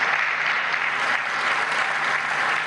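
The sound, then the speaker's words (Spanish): A departmental assembly breaks into applause: a dense, even wash of clapping hands that keeps a steady level throughout. No single voice stands out. “quiero pedir un reconocimiento y un voto de aplauso para cada uno de ustedes”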